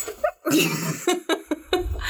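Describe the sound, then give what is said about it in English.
A dog's vocalizing, from a dog named Rocco: a few short snorting, whiny bursts with breathy noise between them, moderately loud and alone. “Rocco, do you have any questions for Asata? He kind of looks like he has a lot of questions. No, we don't speak dog, unfortunately.”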